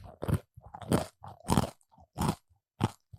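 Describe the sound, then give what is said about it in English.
Crunchy crust being bitten and chewed, with about five loud, crackling crunches spaced at regular intervals and softer chewing sounds between them. “Now you said that I want to take another bite real quick. Okay. Of the crust. The crust is the best part.”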